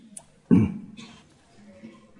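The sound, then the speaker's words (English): A single sharp cough bursts out once, brief and fairly loud, with only faint low background noise around it. “It's coughing season. Everyone like to cough. Have a good cough now and try not to cough for the rest of the class.”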